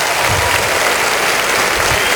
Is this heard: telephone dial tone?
no